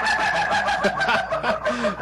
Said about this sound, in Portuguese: Cadê o galo aí? Cadê o galo sorridente aí?